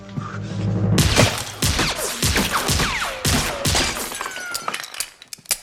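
Gunfire in a film shootout, including a shot that misses its target: a rapid run of many sharp, loud cracks mixed with shattering and heavy impacts, thinning to a few scattered hits near the end.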